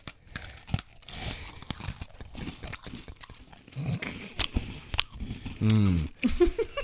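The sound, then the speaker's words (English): Exaggerated chewing and crunching mouth noises made for effect while tasting food, a busy run of wet, irregular crunches and smacks of varying loudness, with a stronger burst of chewing near the end. “Chewing noises. Everybody's shutting it off right now. Chewing noises. I did that for effect.”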